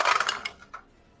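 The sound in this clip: Dice tumble away across a table during a tabletop role-playing game: a quick clatter of hard little clicks that bounce and thin out, with a few faint, spaced taps after it before quiet.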